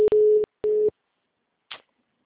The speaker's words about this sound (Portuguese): Caiu a ligação, eu não consegui mais.